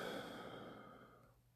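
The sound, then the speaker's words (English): A deep breath let out as a soft, breathy sigh, faint and steady, fading gradually over about a second and a half, heard alone without talk. “I just want to take a deep breath in and out.”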